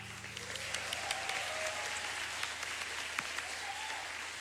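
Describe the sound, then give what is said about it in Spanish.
Audience applause at a concert in Temuco: dense, steady clapping that holds at an even level from start to finish, heard alone with no talk over it. “Quiero pedir un aplauso muy, muy fuerte para Ignacio Galaza en el bajo.”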